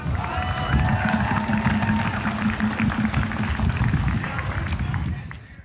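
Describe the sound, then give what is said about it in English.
Crowd noise at a graduate workers' union town hall, with a dense, steady murmur of many voices mixed with clapping and cheering, staying loud before tapering off at the very end. “The sounds you just heard were from the town hall held by the Indiana Graduate Workers Coalition on September 23rd.”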